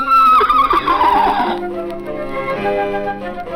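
A horse gives one loud, shrill whinny that slides downward in pitch and breaks off, followed by quieter sustained tones.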